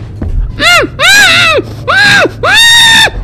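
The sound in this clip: Screaming: four loud, drawn-out cries, each arching up in pitch and then falling away, with the later ones longer.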